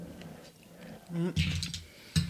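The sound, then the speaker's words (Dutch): Chewing a bite of a freshly cooked cataplana stew with fresh coriander: a few soft, wet mouth sounds and small clicks, with a short hummed murmur between bites. “En ja, ik ga nog een hapje nemen.”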